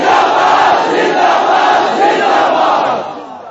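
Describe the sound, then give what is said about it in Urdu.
A large crowd loudly chanting a religious slogan in unison, a dense roar of massed voices sustained for about three seconds before tapering off. “تو اس واسطے یہ نعرہ زور سے لگانا ہے, تاج دار ختم نبوت, تاج دار ختم نبوت.”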